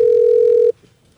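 A single steady telephone tone sounds while a number is being dialed. It is loud and level in the mid range, holds for under a second, then cuts off abruptly into near silence.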